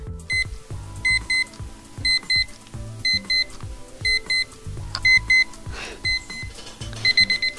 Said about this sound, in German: Können wir das mal hören, den Eulenwecker und das Schaf? Ja, können wir. Ich mache einmal kurz den Wecker an.